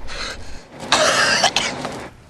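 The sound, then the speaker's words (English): A wounded man, gripping a bleeding wound, coughs several rough, breathy times in quick succession, with a louder burst in the middle and no talk. “Still gripping his blood-covered wound, Buster starts to cough.”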